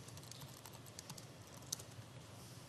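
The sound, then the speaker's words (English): Typing of a username and password on a computer keyboard: many quick, faint key clicks in an uneven run with no talking. “Instead, I've got to type in my username and password.”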